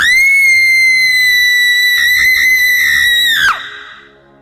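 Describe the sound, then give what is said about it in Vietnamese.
A shrill, ghastly scream holds a piercing, steady high pitch for about three and a half seconds, wavers briefly near the end, then breaks sharply downward and cuts off into a faint fading tail. “Long nghe tiếng kêu thất thanh của Kiều Nhi. Tiếng kêu hết sức thê lương ghê rợn, giống như bị ai đó chọc vào cuống họng vậy.”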